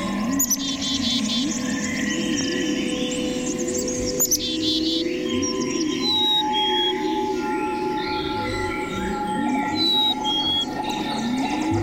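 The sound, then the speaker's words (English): Chickadee calls and high, clear whistled song, with busy chirps, squawks and whistles overlapping continuously, some sharp and rising, over a steady lower background. “Chickadee calls its name Chickadee-dee-dee, but has a high, clear, whistled phoebe for a song.”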